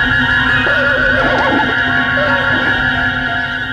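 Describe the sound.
A saddled, bridled horse neighs in a loud, drawn-out whinny, wavering in pitch, over a steady droning tonal background.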